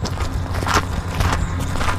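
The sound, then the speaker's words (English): Footsteps on a dirt hiking trail along the floor of an urban canyon in San Diego's Balboa Park: a few soft, crunchy steps over a steady low background rumble. “It's a few hours before sundown, and I'm walking through a network of hiking trails along the floor of one of San Diego's urban canyons.”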